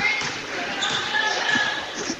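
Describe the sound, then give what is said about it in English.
A basketball is dribbled near center court in a girls' JV game, with repeated bounces thudding under continuous play-by-play commentary. “She dribbles around near center court.”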